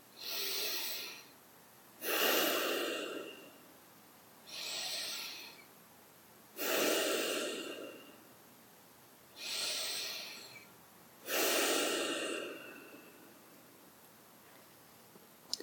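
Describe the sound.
Deep, slow breathing during a guided breathing exercise. Six long, soft breaths come at an even, unhurried rhythm, each a smooth swell of airy noise separated by quiet gaps, with no talk over them.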